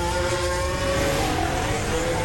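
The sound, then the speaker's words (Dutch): Formula 1 cars heading out onto the track for a final qualifying run at the 2026 Miami Grand Prix: a loud, continuous engine drone with steady tonal lines and no distinct separate passes. “McLaren zit, ja, iedereen in slagvolgorde naar buiten. Hoppa. De laatste run.”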